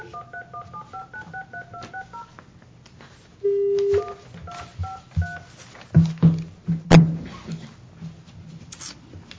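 Telephone keypad dialing tones as a call is placed during a meeting: a quick run of short beeps, one longer held tone, a few more beeps, then several soft clicks and knocks.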